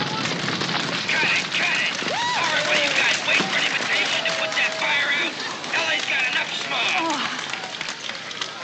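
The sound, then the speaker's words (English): A fire burns during a film stunt, a steady roaring crackle of flames that fills the whole clip at an even loudness, with voices mixed in. “Get that fire out! I want everybody to stay back here while we don't get near those flames.”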